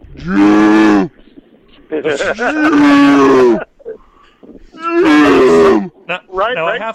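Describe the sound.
A human voice imitates cows mooing at night on a farm during slaughtering time. Three long, loud, drawn-out moos with sliding pitch are followed by a few shorter vocal bursts.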